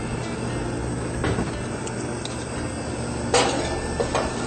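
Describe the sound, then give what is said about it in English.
A metal muffin tin is slid into a preheated oven, producing a few brief metallic clanks and rattles over a steady background hiss. “So now we'll put our muffins into our preheated oven.”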